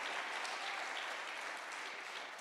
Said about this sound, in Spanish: Un aplauso de fuerte al Señor con el corazón. Let's give a strong hand praise to the Lord with all of your heart.